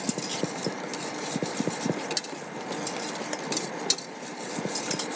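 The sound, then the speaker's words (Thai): Repeated soft scraping and tapping strokes as a mixture is stirred in one direction until it dissolves into a smooth gel. The strokes keep a steady rhythm, with a couple of sharper clinks standing out and no voices. “ควรจะคนไปในทิศทางเดียวกันด้วยใช่ไหมคะ การผสมก็คือไปในทิศทางเดียวกัน”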